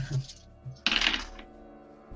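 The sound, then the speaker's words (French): Dice are thrown during a Degenesis tabletop role-playing session. A sudden short rattle and clatter follows a quiet voice, then trails off into soft knocks. “j'ai jeté 2 dés de trop, je suis con”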